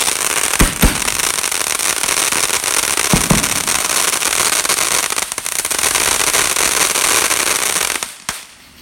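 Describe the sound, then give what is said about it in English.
Loud bangs on a farm echoing off the surrounding hills: a few sharp cracks over a dense, continuous rolling rumble that fades abruptly near the end. “the echo you can hear on those is it rolling off the hills that are around the farm here”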